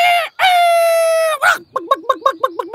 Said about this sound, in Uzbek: alamidan qanotlarini qo'qib, ovozining boricha qichqiribdi.